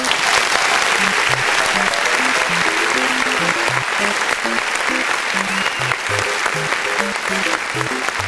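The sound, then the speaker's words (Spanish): A crowd applauds the game's creators with dense, sustained clapping. It stays loud and even from start to finish, with faint tonal notes underneath. “los creadores son chilenos, se merecen un aplauso.”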